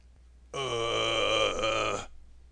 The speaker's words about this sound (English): she was startled to hear a deep groan nearby.